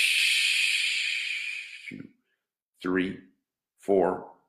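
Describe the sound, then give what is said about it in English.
A loud, long exhale during a guided breathing exercise: a steady, breathy hiss lasting about two seconds that slowly fades, followed by two short voiced sounds. “Big breath. Hold for the count of 3. 1, 2, 3. Exhale loudly.”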